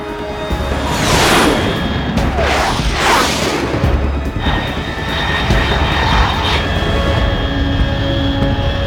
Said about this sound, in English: Control, unidentified aircraft detected, altitude 30,000 feet.